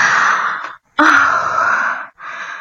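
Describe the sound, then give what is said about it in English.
A woman breathing again as she comes out of a vision in a dramatized scene: loud, long rasping breaths with brief silent pauses between them. “Look, she's starting to breathe again. She seems to be coming out of the vision.”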